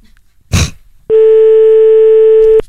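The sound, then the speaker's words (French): Telephone call ringing out: a brief noisy burst, then a single steady, loud ring tone lasting about one and a half seconds. “Donc, on va appeler Marabout.”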